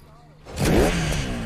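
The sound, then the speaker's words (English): An old yellow motorcycle ridden past an auto garage at a salvage yard: after a quiet start, the engine swells in abruptly about a third of the way through and holds a loud, buzzing revving drone to the end. “At the salvage yard, Corey rides the old yellow motorcycle. He drives it past the auto garage.”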